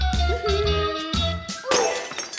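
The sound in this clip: Dishes crash and shatter while a table is being set: a few loud breaking impacts, with bright, ringing porcelain clinks trailing after each crash.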